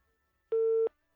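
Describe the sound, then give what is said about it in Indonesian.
Telephone busy tone after a caller's line is cut off: a steady, pure mid-pitched beep lasting about a third of a second, then silence before the next beep begins. “sayang sekali harus terputus, bisa dicoba lagi ya”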